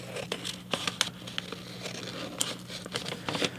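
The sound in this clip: Scissors cutting paper during a math lesson activity, mixed with crinkling paper handling: many short, crisp snips and rustles at a moderate, uneven pace, with no talk over them.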